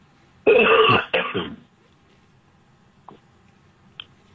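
A person clears their throat with a loud, raspy two-part rasp lasting about a second, then goes quiet apart from two faint small clicks.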